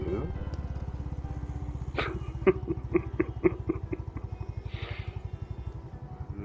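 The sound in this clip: A motorcycle engine runs while being ridden, with a fast, steady, low throbbing pulse throughout and a few sharper taps in the middle.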